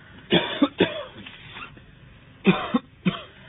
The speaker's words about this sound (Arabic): لقد عودك السعال